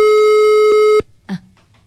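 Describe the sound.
Telephone ringback tone on a call that goes unanswered: a steady, buzzy mid-pitched tone that holds for about a second, then cuts off abruptly, followed by a short faint sound.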